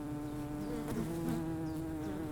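Honey bees buzz at urban beehives in a dense, continuous drone of many insects, steady in loudness throughout, with layered humming tones and no voices.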